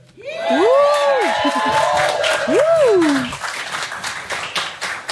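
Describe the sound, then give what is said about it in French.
A studio audience cheers and claps at a live radio show in the Bauges. Loud crowd noise carries rising-and-falling whoops or whistles over the applause and fades slightly toward the end. “Oh, un public en folie ce soir.”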